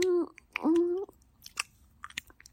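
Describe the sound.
Wet chewing and biting sounds from someone being fed a meal, a few soft crunches and mouth clicks following a short high-pitched vocal sound at the start.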